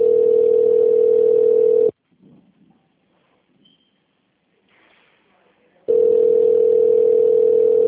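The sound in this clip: A connecting tone sounds on a telephone call to a company's phone line: two long, steady mid-pitched tones, each about two seconds, separated by roughly four seconds of near silence with faint line noise.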